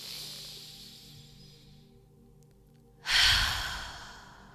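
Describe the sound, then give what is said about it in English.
A deep breath out during a guided breathing exercise: soft, airy breathing drifts along quietly, then one loud, long, rushing exhale swells and slowly fades. “Take time to breathe it out. Inhale. One more.”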